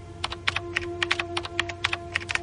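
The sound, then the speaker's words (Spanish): Rapid, irregular keystrokes on a computer keyboard as someone types at a computer in a bedroom, many crisp clicks in quick succession over a steady low hum. “De pronto empieza a teclear algo que aparece en la pantalla.”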